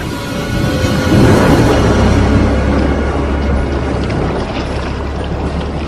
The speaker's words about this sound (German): machen Sie sofort ein Boot klar. Wir fahren rüber.